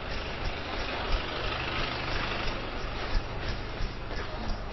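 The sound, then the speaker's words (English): Traffic in a jam on busy Cannon Street, heard as a steady, dense rumble of idling engines and road noise, continuous and moderately loud, with no clear voices. “Oh, it's busy here, there's traffic jam along Cannon Street.”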